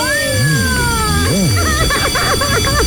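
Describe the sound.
An electronic telephone ringtone warbles up and down in pitch, repeating a few times over a dense, busy background of other sounds.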